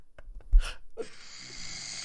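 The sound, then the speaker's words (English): A man snores: a short snorting burst, then a long, rasping, noisy breath that carries on to the end. “Is that snoring? What? This is my husband.”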